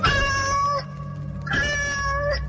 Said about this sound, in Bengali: চিমনির ভেতর থেকে একটা কালো বিড়াল বেরিয়ে এসে ওর দিকে তাকিয়ে আবার ডাকল।